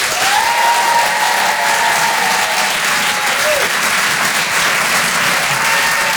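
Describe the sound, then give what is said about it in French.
Audience applause fills a comedy club in a Paris theatre as an act is welcomed. The clapping is dense and steady and continues at an even, loud level for the whole clip. “Faites du bruit, s'il vous plaît, pour Charlie Niobé.”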